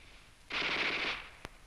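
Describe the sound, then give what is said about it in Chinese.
A Type 11 light machine gun fires in the distance, one rapid rattling burst lasting under a second, followed shortly by a single sharp crack. “你听啊，那小歪把子声音多脆啊。”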